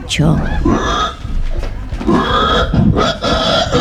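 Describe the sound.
A human voice imitates a pig, letting out a rough, loud run of grunts and snorts. It opens with a sharp high squeal, followed by a choppy series of guttural oinks.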